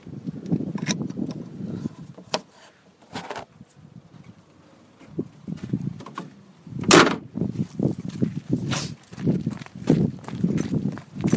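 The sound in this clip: A door opens: soft low knocks and rumbling handling noises lead to a sharp, loud clack, followed by several scattered thumps and rattles.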